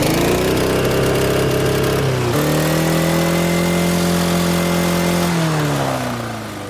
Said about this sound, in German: Ich habe gar nicht gewusst, dass ein Rasenmäher einen Begrenzer hat. Puh, das gibt's. Aber nicht bei allen, aber bei dir schon. Start mal an. Jawohl. So, und jetzt Begrenzer.